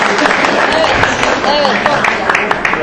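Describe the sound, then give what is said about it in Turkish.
An audience at a group competition with point scores applauds, producing dense clapping with sharp hand strikes. Voices talk and call out over the sound throughout. “Alkışlayalım efendim.”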